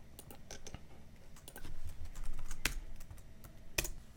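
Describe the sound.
Rapid typing on a computer keyboard while writing code: a steady, busy clatter of keystrokes with a few sharper, louder key hits standing out.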